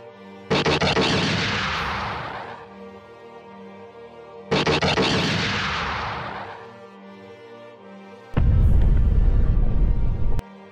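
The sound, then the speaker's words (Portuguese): Explosions from a video game as a gunship and a droid are destroyed by cannon fire: two loud blasts, each dying away over about two seconds, then a dense, steady roar that cuts off abruptly, with no talk. “explode a canhoneira e o droid junto.”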